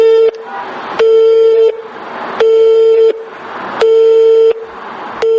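A telephone busy signal after dialing a number: loud, steady mid-pitched beeps, each under a second, repeating in an even on-off rhythm with hissy gaps between them, about four full beeps.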